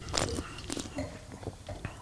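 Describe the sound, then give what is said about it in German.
Slurping sips of white wine during a tasting come as a few short, wet, airy bursts, the loudest one at the start. “Lass uns mal einen Schluck nehmen.”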